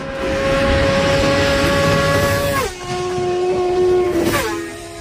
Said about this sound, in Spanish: Este es el sonido de dos motos de gran cilindrada picándose en una carretera de doble sentido.